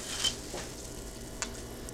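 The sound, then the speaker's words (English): A pale pink drink fizzing with gas: faint, soft crackling carbonation with a couple of tiny sharp pops standing out. “How come it's fizzing? Well, it's got a little gas in it, I guess.”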